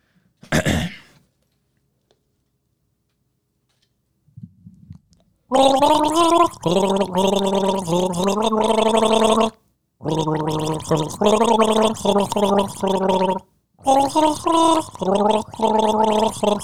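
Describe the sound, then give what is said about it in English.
A person gargles a tune, a bubbly, voiced gargle with wavering pitch in three long phrases separated by short breaks, after a brief sound and a faint one earlier. “Okay, you're gargling, right?”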